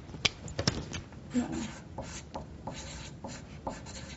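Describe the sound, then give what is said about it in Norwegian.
A pen scratches on paper as someone writes a note during a supervision session. The strokes are faint, short and irregular, coming in a loose series of scrapes and taps. “Skriv opp det.”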